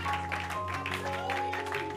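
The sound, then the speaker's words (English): Faint, rhythmic hand clapping of praise during a church service, keeping time over sustained music. “Oh, you can give a hand clap of praise.”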